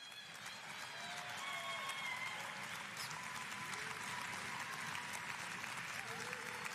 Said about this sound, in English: So would you guys put your hands together and welcome to the stage, Dr. Linda Seiler.